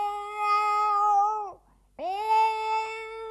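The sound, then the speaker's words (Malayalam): A pregnant stray cat meows twice at a house: two long, drawn-out tonal meows, each holding steady and dropping at the end, with a short silent gap between them. “ഇതാ ഇവിടുത്തെ ഒരു പൂച്ചയാ.”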